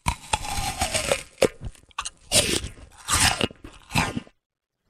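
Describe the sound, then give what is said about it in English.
Someone bites into an apple, giving loud, crisp crunches followed by wet crunching as the bites are chewed, in a few uneven bursts before it goes quiet. “The sound is somebody biting an apple.”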